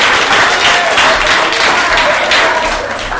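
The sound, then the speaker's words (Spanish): Loud, dense applause from a crowd for a woman during an interview at a secondary-school press event, a continuous wash of clapping that eases slightly at the very end. “antes le voy a pedir un aplauso a esta mujer.”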